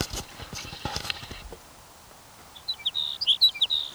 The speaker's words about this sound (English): Your sage sparrow number 5.